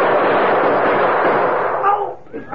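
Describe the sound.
Gunfire in a western drama: a loud, sustained burst of harsh noise holds steady for nearly two seconds, then fades away as a voice begins underneath.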